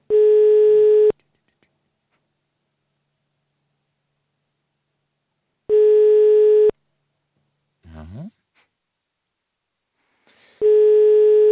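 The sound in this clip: Telephone line tone on an unanswered call: three long, steady electronic beeps, each about a second, spaced roughly five seconds apart with near silence between, and a brief faint voice-like sound in one gap.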